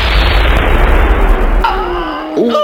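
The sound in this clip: Gunfire effect in a war drama, set as soldiers drag a wounded lieutenant toward a bunker: a loud, dense, rumbling blast of shots and explosions that roars on, then thins into ringing tones near the end.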